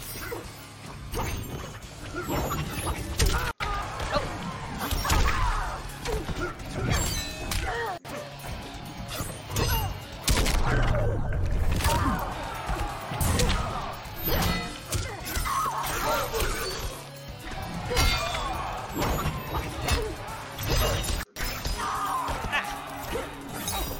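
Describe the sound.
Punches and hits in the final round of a fighting video game: many hard smacks, thwacks and crashing impacts in quick succession over a dense, busy game soundtrack, with voices at times.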